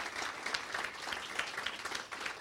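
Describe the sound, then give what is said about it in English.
A church audience applauds those who took part, a steady, fairly soft patter of many hands clapping together with no break, with no voices standing out. “let's just give those that participated a good hand of applause for all of the hard work.”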